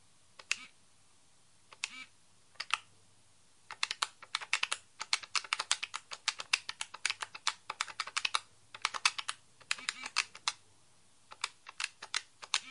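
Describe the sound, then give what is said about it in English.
Keys clack on a device with braille input as a note is typed: many crisp, sharp clicks in uneven bursts, separated by short pauses and a few longer gaps. “I'll type something right now.”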